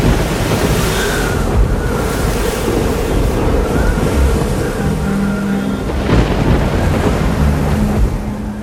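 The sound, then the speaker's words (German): Storm at sea with crashing, surging waves and howling wind lashing a raft whose mast bends under the gale, a loud, dense, continuous roar with swelling surges throughout. “Der Sturm will sich nicht legen!”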